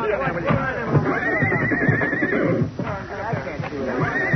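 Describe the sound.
Horses neighing in a barn: loud, shrill whinnies with wavering pitch, one long call through the middle and another near the end.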